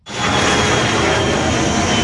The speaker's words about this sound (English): planes that fly above are a reminder of how close this crash site is from the airport. It's about a kilometre and a half from the end of the runway.